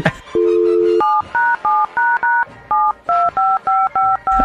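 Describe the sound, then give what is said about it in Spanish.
A telephone number dialed on a touch-tone phone during a radio prank call: a longer steady tone, then many quick dual-pitched beeps in an even rhythm with short gaps and a brief pause partway through. “ahí está, ahí está, ahí está, marcando, marcando”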